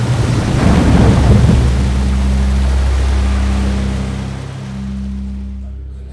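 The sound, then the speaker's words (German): A huge flood wave crashes through a city gate and lifts a boat, making a loud, dense roaring rush over a low rumble that holds steady and then slowly fades. “Boot wurde von einer gewaltigen Flutwelle gehoben und...”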